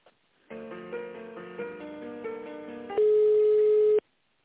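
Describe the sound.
Electronic telephone line tone plays while a call is transferred: a steady buzzing chord of stacked tones that shifts slightly a few times, then gives way to a louder, purer single tone that holds for about a second and cuts off abruptly.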